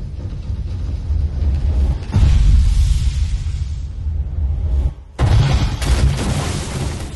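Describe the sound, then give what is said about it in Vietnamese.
A deep booming explosion hurled at a huge elephant near a village, filling the sky with fire: heavy low rumble swells loudly, cuts out briefly, then bursts back in at full force. “Tiếng nổ khủng khiếp vang lên, lửa mịt trời.”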